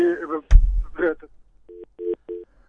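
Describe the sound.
A busy tone sounds after a phone call drops: three short, evenly spaced, mid-pitched beeps follow a brief moment of a person talking.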